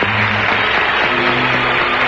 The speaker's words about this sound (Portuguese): Uma salva de palmas para vocês.